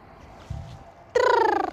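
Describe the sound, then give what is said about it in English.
A Carolina wren and purple martins call. One brief, loud, buzzy call with rich harmonics and rapid pulsing comes after a faint low thump. “Carolina wren, purple martins, lawnmower.”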